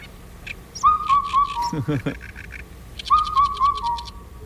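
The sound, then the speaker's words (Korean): Black-backed cuckoo calling: two phrases of clear, mid-pitched whistled notes, each a short run of similar tones, the second phrase following after a pause. “어떤 민요의 선율을 연상시키는 검은 등 뻐꾸기 울음소리 다시 한번 들어보시죠.”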